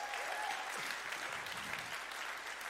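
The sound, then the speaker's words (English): Church audience applause at the Botany Campus honouring the worship leader after a song: thick, continuous clapping at a steady, fairly loud level throughout, with no distinct voices. “Can we give it up for Dan? Isn't he a legend?”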